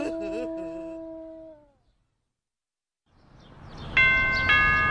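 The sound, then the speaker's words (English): A doorbell rings at a home with a two-note electronic chime over a hissy background, after an earlier warbling tone fades into silence. “Thank you for pressing our doorbell.”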